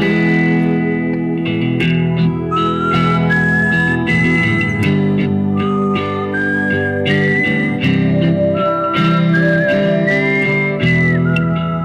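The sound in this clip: A person whistles a wavering, high-pitched melody over a dense musical backing with steady harmonic layers. The whistling runs almost continuously and stays loud throughout, with no talking.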